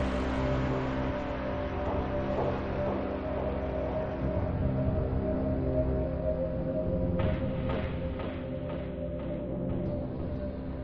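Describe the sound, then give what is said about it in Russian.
Deep engine hum of a powerful combat vehicle, a monotone layered drone that holds steady and level throughout, with a few short rattling bursts breaking in near the end. “Мощный двигатель боевой машины монотонно гудел”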